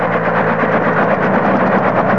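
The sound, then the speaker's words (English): A helicopter hovers over a large clearing deep in a South American jungle, giving a steady, loud engine drone with a fast rhythmic rotor throb, and no voices. “The copter is hovering over a large clearing deep in a South American jungle.”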